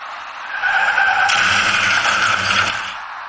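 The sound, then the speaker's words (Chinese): Tire skidding and car noise at a late-night city intersection crash, where a white car making a U-turn collides with a white car driving straight. A loud, steady hissing roar lasts about three seconds, then fades. “就在这时一起两车相撞的事故出现了，您注意看。”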